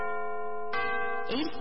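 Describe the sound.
Radio time-signal chime marking six in the morning on an FM station: a series of sustained, bell-like ringing notes, each held briefly before the next sounds, rich in overtones.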